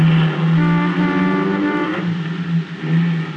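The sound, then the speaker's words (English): A running car engine gives off a steady low drone with a slight waver and a rough, buzzy edge. It holds at an even loudness throughout, with no talk over it. “Say, this car really runs nice.”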